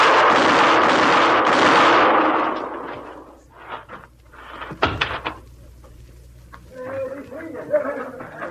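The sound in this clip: Pistol gunshots in a showdown between two men: a few sharp, loud cracks spread over a few seconds, followed by a man's voice.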